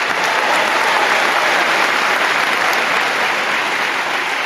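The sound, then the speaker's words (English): Audience applause, a loud, dense and even roar of many hands clapping that holds steady throughout, with no voices over it. “Round of applause for Lee Corso”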